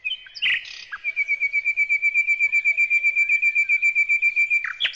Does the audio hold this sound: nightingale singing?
yes